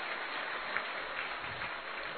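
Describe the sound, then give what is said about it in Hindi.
Applause for a grandmother at a celebration, a dense, even patter of many hands clapping continuously throughout, fairly faint and muffled. “जोर से ताली बजाएंगे दादी के लिए।”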